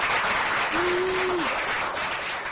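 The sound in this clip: Audience applause welcoming panel guests to a discussion of a TV series, a continuous, even clatter of many hands, with a brief steady tone sounding through the middle.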